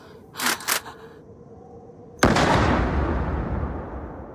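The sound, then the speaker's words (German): A gunshot is fired at tin cans set up on a small hill. It is one sharp, loud crack followed by a long, slowly fading rumble, and two shorter, softer bursts come before it. “Und dann schießt sie.”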